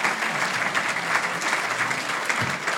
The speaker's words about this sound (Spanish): Un aplauso para las cuidadoras de Nora.